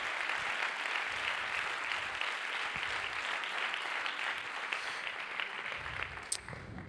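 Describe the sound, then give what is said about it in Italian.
A church Sunday gathering bursts into steady, sustained applause from the audience. The clapping is dense and even for the whole stretch, with no talking over it. “Facciamo un applauso.”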